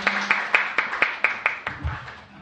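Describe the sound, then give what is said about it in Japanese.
An audience at a church service claps to welcome a guest to the front. The claps are sharp and evenly spaced in a steady rhythmic beat, with no talk over them, and the beat loosens toward the end. “Why don't we put our hands together?”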